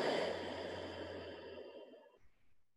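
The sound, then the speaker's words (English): A slow, deep breath during a yoga session, heard mostly as a long, audible exhale that starts strong and fades out over about two seconds, alone without talk. “Take a breath in. Empty out.”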